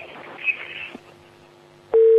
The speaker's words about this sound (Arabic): سبحان الله، قطع الاتصال.